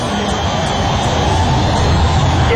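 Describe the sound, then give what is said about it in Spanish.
A loud, steady roar of an airplane passing overhead fills the whole stretch: a deep, trembling rumble with broad noisy hiss that holds level throughout and stays at the same strength, with no talk over it. “¿Qué es ese ruido que tiembla? No, para mí pasó un avión.”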